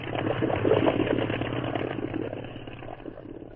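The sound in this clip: Motorboat motor running in a steady, rough, low drone that stays even throughout and eases slightly toward the end.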